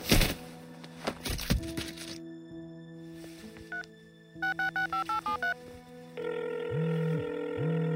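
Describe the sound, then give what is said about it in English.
A mobile phone dialing a number and ringing: a clatter, then a quick run of keypad beeps, followed by a steady ringing tone on the line. “Tossing it aside, I dialed the number.”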